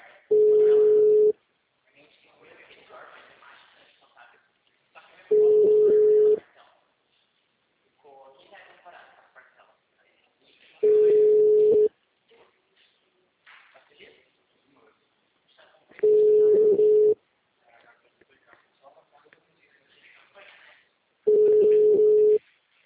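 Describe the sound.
Ringback tones while a phone call is being placed: five steady mid-pitched beeps, each about a second long and spaced roughly five seconds apart, with people talking quietly in the gaps.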